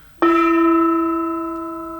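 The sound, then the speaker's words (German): A gong is struck once with a sudden metallic attack, then rings on as a sustained, richly overtoned tone that slowly fades. “Gong!”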